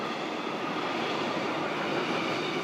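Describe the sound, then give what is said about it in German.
A test freight train entering the west tube of the Gotthard Base Tunnel gives a loud, steady, dense rushing roar that holds evenly throughout, with no distinct clacks or breaks. “Wir fahren nun mit unserem Probegüterzug hinein in die Weströhre des Gotthard-Basistunnels.”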